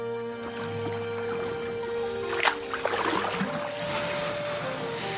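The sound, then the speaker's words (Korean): A boat moves along canal water in Wuzhen, China, on a day of light rain. A steady low drone runs throughout, with continuous water rippling and a short burst of splashing midway. “저기 배가 있는데 배를 한번 타볼까요?”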